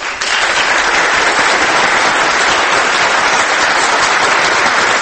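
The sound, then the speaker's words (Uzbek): Thunderous applause from a crowd after a presidential oath of office in Uzbekistan: dense, loud clapping that holds at a steady level from start to finish with no break. “Keyin chapaklar, guldiroz qarsaklar.”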